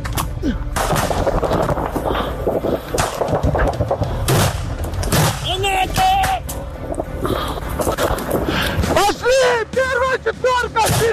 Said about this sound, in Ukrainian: Це з нещодавнього. Це чим? Чим? Це кабана. Граната!